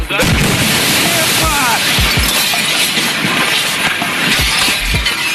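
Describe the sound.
A meteor exploding in the air over Chelyabinsk, Russia, heard as a continuous loud roar of dense noise punctuated by a few low thuds, with voices faintly present.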